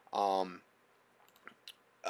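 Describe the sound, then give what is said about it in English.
Computer mouse clicks as a file is opened. After a brief voiced sound, a few faint, sharp clicks follow, two of them close together, with quiet gaps between. “And I'm gonna click on my file I have on vaccinations”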